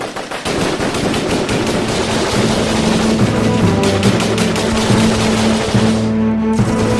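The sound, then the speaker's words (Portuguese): Sustained machine-gun fire comes from enemies shooting from behind crates during a vault heist. Dense, rapid volleys of shots keep up a loud, continuous rattle throughout, with no voices. “eles já começam a sacar a arma, eles, eles se escondem atrás de alguns caixotes e começam a atirar em vocês.”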